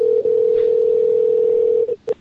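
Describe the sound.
Telephone tone, a steady mid-pitched electronic note held for nearly two seconds, then cut off and followed by a couple of short beeps.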